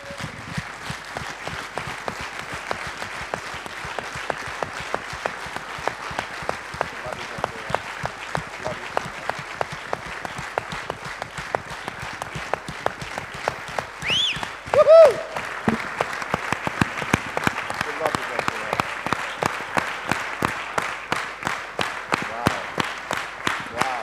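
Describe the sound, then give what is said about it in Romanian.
Applause from a church audience at a pastors' ordination service: many hands clap steadily and evenly for the whole stretch, loud and continuous, with a brief swell partway through. “So I would like us all not just to clap our hands. Aș vrea nu numai să aplaudăm, but to stand and honor her.”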